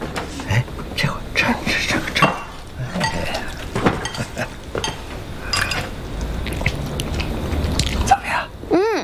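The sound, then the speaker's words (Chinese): Eating hot braised yellow-skinned pig trotters at a table: biting and chewing mixed with clinks of dishes and cutlery, uneven and fairly soft, amid people talking. “来了，黄皮猪手，这要趁热吃啊！挑一块。”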